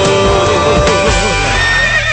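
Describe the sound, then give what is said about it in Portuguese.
A horse neighs loudly and continuously for about two seconds in a dense, harmonic whinny that wavers in pitch and never pauses. “Cavalão tá doidão, cavalão tá doidão, tá relinchando e galopando”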